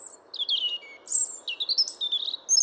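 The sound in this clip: A European robin, a common garden bird, singing thin, high warbling phrases of quick, varied notes separated by short pauses. The song is fairly faint and heard alone.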